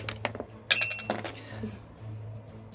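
Dice landing on a table during a tabletop role-playing game, heard as a few quick, hard clicks and rattles over a low steady hum.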